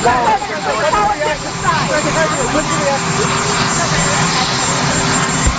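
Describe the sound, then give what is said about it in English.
Presidential Marine One helicopter keeps up a steady, loud rotor and engine roar throughout, with a faint high whine on top, beneath a man talking. “That was the sound of Marine One in the background there”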